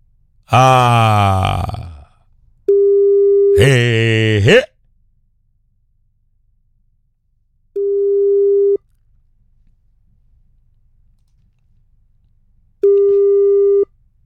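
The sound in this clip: Ringback tones of an unanswered telephone call sound as long, steady mid-pitched buzzes, repeating three times with long silent gaps between them. A voice is heard at the start, overlapping the first tone.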